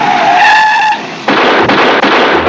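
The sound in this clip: Tires skid as a car turns around, with a loud, high squeal lasting about a second, then a harsh, rough roar of tire and engine noise.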